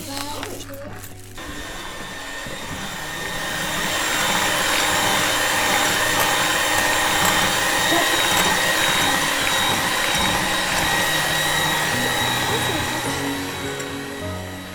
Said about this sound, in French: C'est battre les blancs en neige.